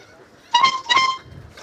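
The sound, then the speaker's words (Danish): A boat horn honks out a tune, sounded by the boat's owners: two loud, bright, sustained horn notes in quick succession, followed by a faint low rumble. “han vil nu sammen med ejerne af båden Trutte Dytte et stykke musik”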